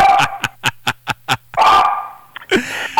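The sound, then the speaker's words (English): A small Havanese dog barking indoors: a rapid run of short, sharp yips followed by a few longer, drawn-out barks, loud and close. “I don't know why she left that dog in there. What kind of dog is it? It's a Havanese.”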